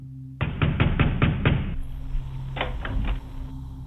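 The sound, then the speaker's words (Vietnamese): Loud, repeated pounding on a house door: a rapid burst of heavy knocks, a brief pause, then a few more hard blows in quick succession. “Tiếng gõ cửa một hồi vang lên rồi lại im lặng, cứ một lúc lại đập rầm rầm rầm rầm rồi lại im lặng.”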